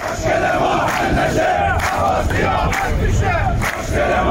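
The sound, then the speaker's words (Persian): Striking workers of the Ahvaz National Steel Industrial Group chant in protest, a loud crowd of voices shouting together in a continuous, forceful chorus. “این صدای اعتراض کارگران گروه ملی صنعتی فولاد اهواز است.”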